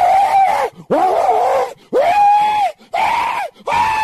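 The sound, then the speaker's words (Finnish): A voice imitates people wailing in agony inside a fire, giving five loud, drawn-out cries. Each cry rises in pitch at its start, then holds steady, and short pauses separate them. “And there will be wailing.”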